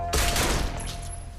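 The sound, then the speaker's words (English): A gunshot, a warning shot fired at the ground, bursts out as one sharp, loud blast followed by a sustained, noisy rumbling tail that fades slowly. “He aims at Frank, then fires a warning shot on the ground.”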